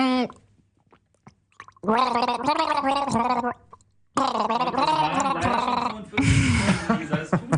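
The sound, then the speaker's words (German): Gurgling, sputtering throat sounds of a person choking on a drink, with broken voiced vocal sounds followed by a harsh, noisy gargling burst at the end. “Boah, ich verschluck mich hier die ganze Zeit.”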